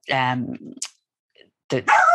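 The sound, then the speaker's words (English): A dog barks a few times, short sharp bursts separated by brief quiet gaps. “there goes my dog. Sorry.”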